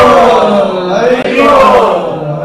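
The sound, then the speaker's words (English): A crowd of devotees shouts the Haribol chant in unison, a loud, sustained, voiced call with a brief dip midway. “Let's put out three loud Haribols to welcome Guru Maharaj and Guru Maharaj.”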